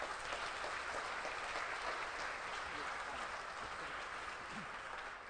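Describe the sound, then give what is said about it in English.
Audience applause welcomes a speaker at a Christian mission gathering. The clapping is quiet, dense and unbroken, keeping a steady wash of sound for about five seconds. “Let us join our hands together to welcome Jamie.”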